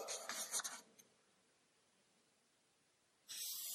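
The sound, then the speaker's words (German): Handwriting makes a short run of soft, faint scratching strokes at the start, then near silence before a hissy noise returns at the end. “Ja, schreibt man hin, sitzen und hören.”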